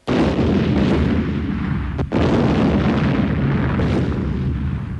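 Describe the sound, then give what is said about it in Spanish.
Explosion from a hard device hidden in the back of a plush teddy bear in a village: a loud, dense roaring blast that holds for several seconds, broken by a brief gap midway, with no voices. “Apretó aquella cosa dura que su amigo tenía en la espalda, bajo el peluche, y se oyó una explosión. El oso se rompió en mil pedazos.”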